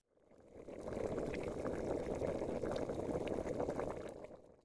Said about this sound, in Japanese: お湯沸かしてたの忘れてた！